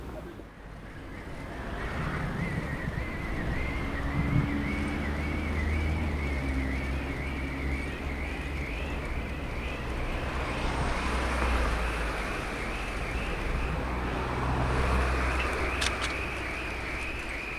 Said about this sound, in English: Well, the sound you can hear, the kind of whirring sound on my bicycle, it's the sound of the dynamo, it being night time now.